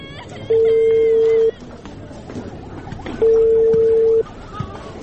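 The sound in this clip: A telephone ringback tone sounds as a call to a father is placed: two steady, loud, mid-pitched beeps, each about one second long, separated by a pause, over a busy background.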